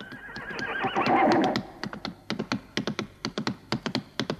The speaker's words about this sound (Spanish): ¡Y ahora, al galope, caballito!